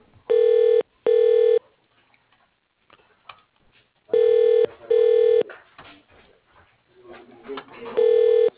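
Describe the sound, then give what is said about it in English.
Ringing tone from a telephone extension being called: steady, buzzy tones in paired pulses. The pattern repeats in three cycles, with faint low noise in the gaps between them. “For Dan Michelson, dial 101. Please wait a moment.”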